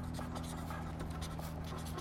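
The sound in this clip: A pen scratches across paper in faint, uneven strokes, quiet and dry, over a low steady hum.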